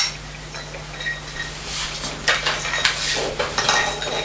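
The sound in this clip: Food being added to a cooking pot to simmer longer: faint, irregular clinks and clatter of utensils against the pot, with a steady low hum underneath.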